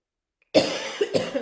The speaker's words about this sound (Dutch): sorry. Ik heb echt al dagen enorme kribbelhoest en vooral s'nachts.